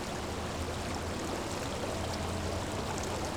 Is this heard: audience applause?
no

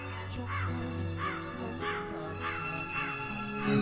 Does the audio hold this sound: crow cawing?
yes

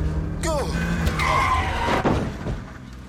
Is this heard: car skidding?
yes

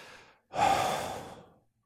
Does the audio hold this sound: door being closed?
no

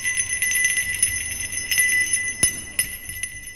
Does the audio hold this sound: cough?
no

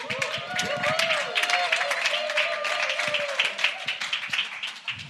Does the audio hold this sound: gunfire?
no

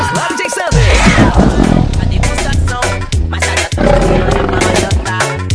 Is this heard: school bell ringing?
no

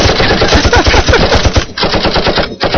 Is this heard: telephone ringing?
no

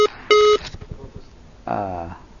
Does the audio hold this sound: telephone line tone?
yes

